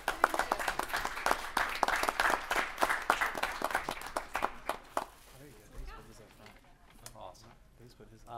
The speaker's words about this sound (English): I'd like to get a big round of applause for our art teachers and Ava